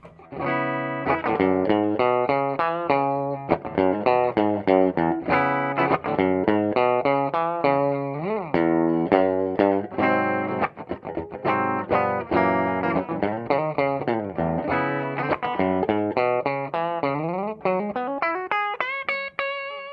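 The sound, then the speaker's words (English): Electric guitar played through its bridge pickup, reportedly a hotter-than-normal Juicy Bucker, with a distorted, effects-laden tone. Fast runs of picked notes and chords play continuously, ending with a quick rising run. “And now let's hear the bridge real quick. Okay, bridge pickup.”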